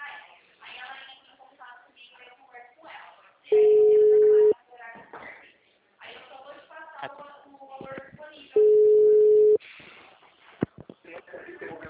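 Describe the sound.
Telephone ringback tones sound as a call rings out to a bank customer about a loan approval. There are two steady, mid-pitched tones of about a second each, separated by a pause, with people talking before, between and after them.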